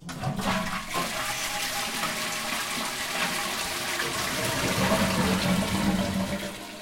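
A toilet flushes after its lid is closed and the button pressed, letting out a loud, continuous rush of swirling water that holds steady throughout and swells slightly toward the end.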